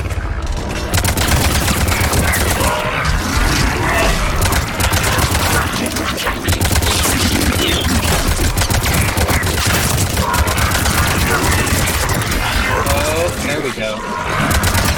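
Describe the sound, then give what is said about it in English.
Video game gunfire as players shoot Rachni husks, with dense, loud bursts of shooting that run without a break through the whole stretch. “I like the little Rachni husks because they just die so spectacularly. They've got this big bulbous gooey underbelly that explodes outward when you shoot them the tiniest bit.”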